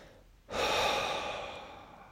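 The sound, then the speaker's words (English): Slow exhaled breath during a guided breathing exercise: after a short quiet moment, a soft, airy rush of breath starts suddenly and then fades gradually over about a second and a half, with no talking. “As you inhale, you acknowledge that energy. And as you exhale, you let it out. Breathe it out.”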